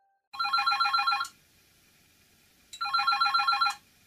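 A telephone rings twice for an incoming call, each ring a bright, rapidly trilling burst about a second long, separated by a silent pause and heard alone.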